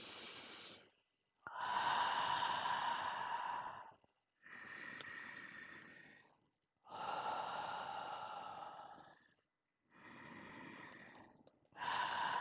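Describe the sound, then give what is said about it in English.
Slow, deep breaths closing a meditation, made up of long, airy inhales and exhales, each lasting one to three seconds and separated by brief silent pauses, breathy and soft in a steady rhythm. “Let's take three deep breaths to close the circle.”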